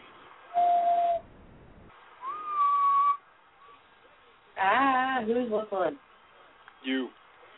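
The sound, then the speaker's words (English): High-pitched human whistling comes in a few short tones, one held steady and one sliding upward. A voice and a brief higher squeak follow. “Whistling. You. I am not whistling because my whistle is not that high pitched.”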